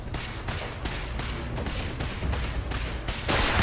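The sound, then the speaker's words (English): In a video game, missiles fire at the player as many rapid, muffled booms and bursts in a loose, steady rhythm. The blasts stay fairly quiet throughout, then grow heavier at the very end. “Ah, yeah, they are shooting missiles at me.”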